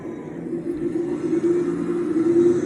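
Steady low rumble of a car driving on a road in the evening during a family road trip, a continuous even engine and road hum with no clear change in pace.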